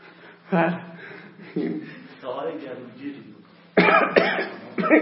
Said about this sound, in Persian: و دارم یه سرفهی بکنم.